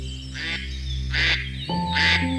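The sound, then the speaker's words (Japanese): A duck quacks three times, in evenly spaced, raspy, nasal bursts. The quacks stand out loudly over a steady, sustained tonal hum that runs underneath throughout. “カモさん、またね。”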